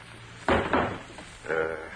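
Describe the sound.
Knocking on a wooden barn door: two heavy, dull knocks in quick succession, followed by a quieter muffled sound, with no talk.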